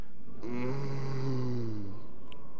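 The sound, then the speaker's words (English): A church audience groaning together on cue during a sermon: one sustained, low, droning groan from many voices that holds steady for about one and a half seconds and then stops. “let's hear the sound of groaning. Give me 3 seconds of groaning.”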